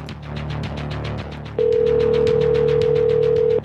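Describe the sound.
A telephone call going unanswered: a rapid regular pulsing, then a loud steady tone that starts midway and holds almost to the end.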